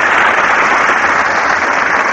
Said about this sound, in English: You see, with any name, the applause is just the same.